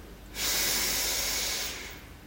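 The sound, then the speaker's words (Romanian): A deep inhale fills the lungs during a guided relaxation breathing exercise with eyes closed. It is a steady, airy rush that begins abruptly, holds for over a second and then fades, heard alone. “Inspirăm adânc, ne umplem plămânii cu aer.”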